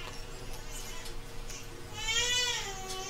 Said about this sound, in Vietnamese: À, khoan khoan, con nó khóc bên kia rồi, để bắt chạy qua bển cái rồi bắt trở lại liền.